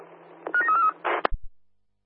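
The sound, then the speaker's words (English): Telephone keypad dialing tones as someone calls an office phone: a few short, clear beeps in quick succession, followed by a brief noisy burst, a sharp click and a couple of low thumps before silence. “Yeah, mate, can you call us on the office phone, please? You're dialing now.”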